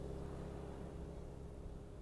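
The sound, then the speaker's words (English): Cars passing in the street make a dense, low rumble that holds steady and fairly loud throughout, a continuous drone of traffic with no single pass-by standing out. “The bloody cars. Such a thing as a quiet chat, I ask you.”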